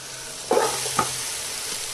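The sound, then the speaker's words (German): Cut bell pepper sizzles as it fries in a pan, a steady soft hiss. Two brief clatters of stirring stand out early on. “Und tue auf die Ecke jetzt die Paprika da rein, die ich geschnitten habe.”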